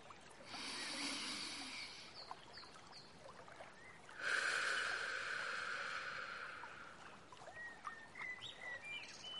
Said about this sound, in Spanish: Respiramos.